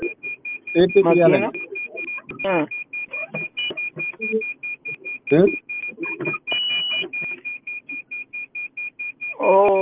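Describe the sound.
An electronic alarm beeps steadily with a high-pitched repeating tone that runs through the whole stretch, sitting beneath continuous conversation.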